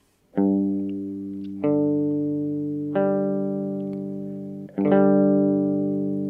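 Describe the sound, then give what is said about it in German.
Clean electric guitar power chord with the root doubled an octave higher, struck four times. Each strum rings out and slowly decays before the next attack, with a slight chorus-like shimmer and no distortion. “Um den Klang etwas voller zu machen, kann man auch einen dritten Ton dazu nehmen. Dieser ist jedoch lediglich die Verdopplung des Grundtons um eine Oktave höher.”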